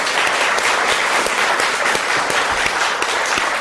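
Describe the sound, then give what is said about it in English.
Audience applause after an opening speech at a World AIDS Day event: dense, steady clapping of many hands, loud and unbroken throughout. “And let's give it up for what a spectacular speech and opening for World AIDS Day.”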